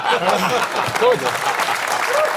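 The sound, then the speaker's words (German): Audience applause rises as dense, steady clapping that lasts throughout, with a voice talking over it. “Das könnt ihr klatschen.”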